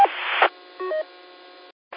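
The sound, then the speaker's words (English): A short tonal chirp from a handheld radio transceiver at the end of a transmission through a repeater: a brief multi-tone beep sits amid bursts of steady radio hiss, which cuts to silence and then returns. “You got a chirp when you get done transmitting. There's a little beep there.”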